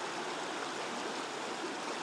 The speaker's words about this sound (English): Listen to the river. It runs through the centre of Cong.